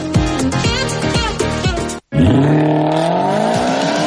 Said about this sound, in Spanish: ¡Vaya cochazo! ¿Es nuevo?